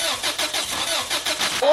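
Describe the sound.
A car engine cranking as it tries to start, the starter churning loudly in a rapid, even rhythm of repeated pulses.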